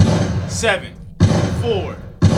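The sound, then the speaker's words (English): Gunshot sound effects: three loud, sharp blasts about a second apart, each trailing into a ringing, whistling tail. “And can I get some gunshots, please, for my next guy?”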